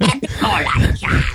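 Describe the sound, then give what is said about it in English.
A voice imitates a golem coughing up a hairball, a rough, guttural, gravelly growl with throaty rasping and a brief catch partway through, loud and continuous. “More like that, more like a golem coughing up a hairball.”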